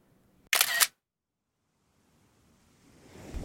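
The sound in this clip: A single camera shutter snaps as a photo is taken, a short sharp click-burst, followed by quiet, then a soft rushing wind-like noise that slowly grows louder.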